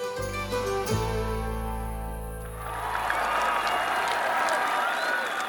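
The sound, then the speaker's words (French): A crowd applauds and cheers as a king finally appears at a royal feast after hours of festivities. A sustained musical chord opens, then fades into a broad wash of clapping and cheering that fills the second half. “Après quelques heures de festivités, le roi se montre enfin sous les acclamations.”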